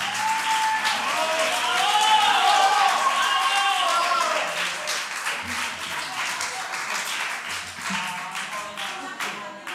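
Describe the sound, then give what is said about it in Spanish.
Applause and cheering from a live concert audience at La Dahlia, loud and sustained throughout, with crowd voices mixed into the clapping. “Un fuerte aplauso a Paco,”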